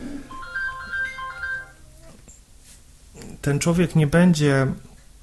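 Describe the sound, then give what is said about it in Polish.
A mobile phone ringtone plays a stepped electronic melody of clear tones for about two seconds, then stops. After a short pause, a man starts speaking loudly. “przepraszamy, bośmy nie wyłączyli telefonu”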